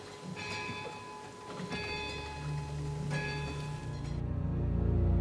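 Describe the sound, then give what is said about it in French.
A clock strikes midnight, its chimes ringing through the old stone walls of a château: three faint, resonant strikes at an even pace, followed by a low rumble that builds toward the end. “À minuit pile, l'horloge se met à sonner. Le bruit résonne et traverse les vieilles pierres.”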